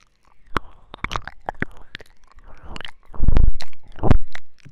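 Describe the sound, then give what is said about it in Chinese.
Lips scrape across an object in close, dry and wet mouth sounds: many sharp crackling clicks and smacks scattered irregularly, then a few louder, rougher bursts toward the end. “试试看这边能不能用嘴唇去刮”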